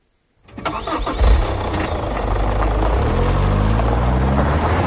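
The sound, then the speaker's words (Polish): An off-road vehicle's engine starts after a moment of silence: a short burst of cranking catches into a loud roar, then settles into a steady, rumbling idle with a deep, even hum. “dopiero gdy usłyszał dźwięk odpalanego silnika terenówki, odważył się wyjść.”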